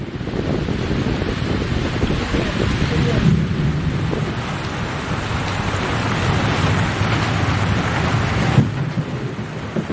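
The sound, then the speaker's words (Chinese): Heavy rain and gusting wind during a sudden violent storm at an archaeological tomb excavation site, a steady dense roar that fills the whole stretch without pause. “在对墓葬边厢进行简单清理之后，发掘现场突然迎来的狂风暴雨，将原本焦热的墓穴封土迅速打湿。”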